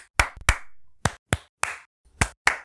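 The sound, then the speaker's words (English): Seven sharp hand claps, used as a slate to sync audio, come in uneven pairs and singles with near silence between them; each is crisp and loud with a short tail. “The whole point of the clap is to see on the sound bars. 1, 2, 3, with no sound in between, or else you can't visually identify.”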